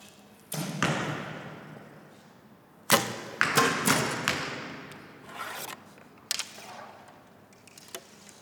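Arrows are shot into an archery target, with many sharp thuds and snapping impacts landing at irregular intervals, each trailing off in a brief rustle.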